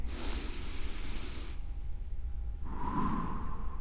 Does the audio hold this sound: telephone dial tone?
no